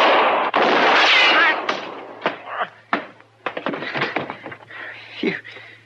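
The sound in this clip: Gunshots ring out in a Western shootout, two loud, sharp blasts crowding the opening second and a half, followed by men talking urgently and a few softer thuds.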